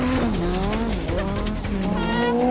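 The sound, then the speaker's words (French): Car tires screech through a controlled drift, a loud, continuous squeal that wavers in pitch over a roaring engine. “Roule droit! Non, pas les dérapages contrôlés! Non!”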